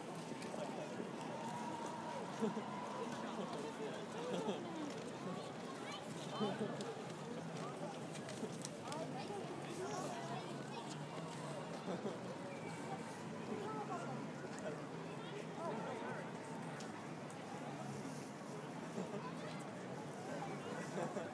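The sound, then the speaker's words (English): A dense crowd mills about in one of London's busiest public places, a continuous babble of many overlapping voices and footsteps at steady, moderate loudness. “Lots of people milling about all over the place. I think after Trafalgar Square and Covent Garden, this can be one of the busiest places in London at times.”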